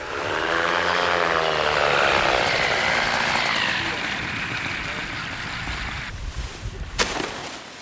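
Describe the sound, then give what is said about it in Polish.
A powered hang glider, an ultralight trike, flies in to land with a loud, buzzing propeller-engine drone. The pitch falls early on, then the sound slowly eases and ends with a few faint clatters. “To nie Sasza, to jest jej kolega z ekipy, który, jak się właśnie dowiedzieliśmy, lata na moto lotni, a Sasza lata na moto paralotni.”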